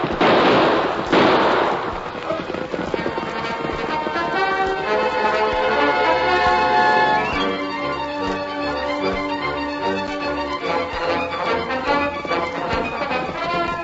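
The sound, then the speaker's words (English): Two loud gunshots fired over the heads of pursuing riders in an Old West chase, sharp bursts close together at the start, followed by a long stretch of dramatic orchestral music. “Use your gun, Tonto. We'll shoot over their heads.”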